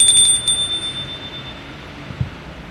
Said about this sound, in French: Il sonne une seconde fois.